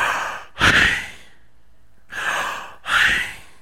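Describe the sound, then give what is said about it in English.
A person breathing deeply: a few loud, breathy inhales and exhales separated by short silences, with no talking. “Have you ever listened to yourself breathe? Listen to it.”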